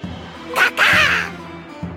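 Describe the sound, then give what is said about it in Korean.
Harsh crow caws, a short call followed by a longer, drawn-out one, over a low, steady tonal background. “아니, 까마귀가 또 있군. 너도 합격이다.”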